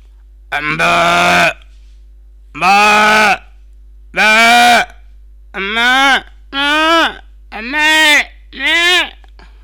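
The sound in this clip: A human voice imitates a cow or calf with seven drawn-out, bleating moos. The calls are loud and separated by short pauses, and the later ones come closer together.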